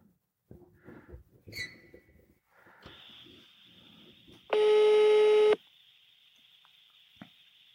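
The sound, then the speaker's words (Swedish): A mobile phone call's ringing tone sounds once, a loud, buzzy, steady tone lasting about a second, over a faint high whine with a few quiet sounds before and after. “Hey Siri. Call Marcus Attefors. Calling Marcus Attefors mobile.”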